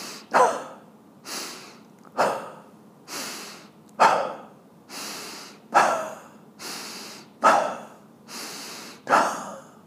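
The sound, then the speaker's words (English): Forceful breathing exercise: six sharp, quick exhales pushed out from the stomach alternate with softer inhales in an even rhythm. Each breathy, hissing exhale starts abruptly, and no one talks. “So it goes inhale, quick exhale. Inhale, exhale, inhale.”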